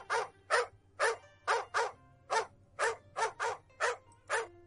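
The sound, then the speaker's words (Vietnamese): A dog barking loudly in a garden: a fast, steady run of many sharp, bright barks, each one brief with short gaps between, and no voices over it. “Đột nhiên cũng không biết là trong vườn nhà ai truyền đến tiếng chó sủa đinh tai.”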